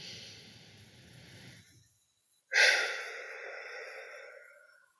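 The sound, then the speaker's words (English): Slow, deep paced breathing, inhaling for four counts and exhaling for ten. A soft, airy drawn breath is followed by a brief pause, then a louder sighing exhale that begins abruptly and slowly fades. “My favorite one is inhaling for four counts and exhaling for 10 because that drops your heart rate like immediately by around 10 beats per minute. So I'm going to go ahead and do that.”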